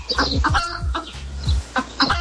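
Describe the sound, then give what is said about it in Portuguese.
Chicken clucking in a quick series of short, choppy calls with uneven gaps, fairly loud and with no voices over it. “Que isso? Uma galinha.”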